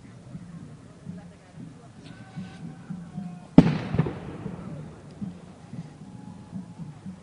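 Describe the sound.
A single loud firework bang bursts out midway, followed by a crackling, gradually fading tail. People talk steadily throughout, before and after the blast.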